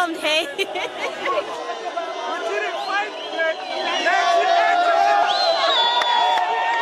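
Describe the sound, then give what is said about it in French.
A jubilant crowd in Zimbabwe celebrates the resignation of President Robert Mugabe with excited chatter, whoops and cheering voices that swell louder in the second half. “Voilà, vous entendez la joie des manifestations de joie aujourd'hui au Zimbabwe où l'on a appris la démission du président Robert Mugabe au bout de 37 ans de pouvoir.”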